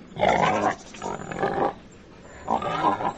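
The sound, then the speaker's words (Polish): Wild boar grunting, three rough, drawn-out vocal calls separated by short pauses, fairly loud against a quiet background. “Na prosty repertuar wokalny dzika składają się chrząkania i kwiczenia.”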